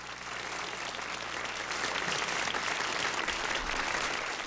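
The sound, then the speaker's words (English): Studio audience applause sound effect: dense, steady clapping that fades in quickly and then holds at an even, moderate level for about four seconds. “Just thought I'd add some sound effects there. Studio audience.”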